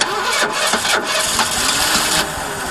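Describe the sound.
A car engine cranks and tries to start, a loud, steady mechanical churn with a gritty, rattling texture that runs for nearly three seconds and eases off slightly near the end.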